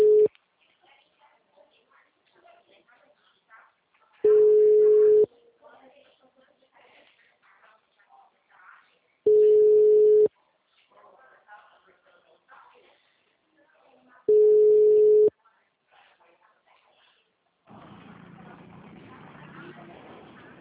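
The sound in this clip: Ringback tone of an outgoing telephone call that goes unanswered: four steady, low beeps, each about a second long and roughly five seconds apart, with faint background sounds between them and a stretch of hiss at the end.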